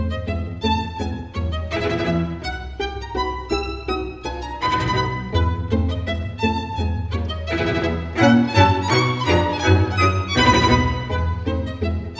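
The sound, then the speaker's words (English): Orchestral Spanish galop, a fast Austrian dance piece from the late 1800s, plays on its own. Lively, bright melodic lines ride a steady, driving beat, loud and continuous throughout with no voices. “This is a gallop, just another kind of fast dance called the Spanish Gallop.”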